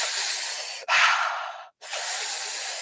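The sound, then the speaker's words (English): Continuous breathing in and out through the mouth, deep belly breaths heard as a few loud, airy rushes following one another with only brief gaps, and no talk. “So we'll be breathing in and out through the mouth. It's going to look and sound like this.”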